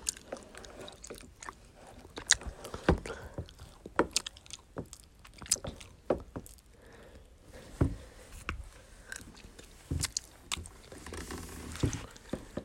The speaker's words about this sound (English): this is hard to take out this honeycomb. It's chewy and doesn't really taste like anything.